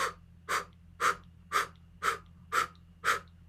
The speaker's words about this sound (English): So a blow breath is coming from the diaphragm and just blowing out.